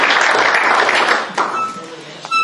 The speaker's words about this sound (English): So anyway, Kenny, we're delighted you're here. We're really looking forward to what the Lord has laid in your heart. So let's welcome Kenny.